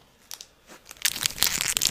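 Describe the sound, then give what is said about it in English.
A Twix chocolate bar wrapper crinkles and tears open. A few short, separate crinkles come first, then a denser, louder stretch of crackling plastic fills the second half. “I might eat that during the show, bro. I haven't had a Twix in a minute.”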